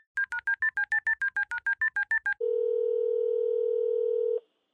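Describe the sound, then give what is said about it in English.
A telephone call being placed: a rapid run of about fourteen touch-tone beeps, then a single steady, loud tone held for about two seconds before cutting off. “Okay, simmer down, I'm gonna call him.”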